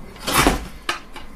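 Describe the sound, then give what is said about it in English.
A door being shut gives a dull knocking thud, then a sharper thump and a fainter knock. No one speaks during the sounds. “And shut the door.”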